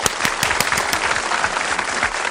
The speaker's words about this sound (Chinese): 是的，非常好，说的非常好，来给你拍拍手。